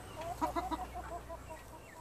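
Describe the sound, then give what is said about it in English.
A hen clucks softly in a short run of quick, faint clucks that fade toward the end. “One hand full of eggs, she stoops to scoop up a hen with the other, sets down the eggs to pet the bird.”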